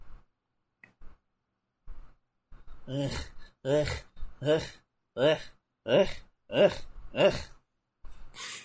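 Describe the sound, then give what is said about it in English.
Stone Cold, a video game wrestler character, breathes heavily through his mouth: about seven loud, rhythmic, voiced gasps after a few faint clicks. “Stone Cold breathing through his mouth.”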